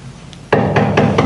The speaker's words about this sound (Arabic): من الطارق؟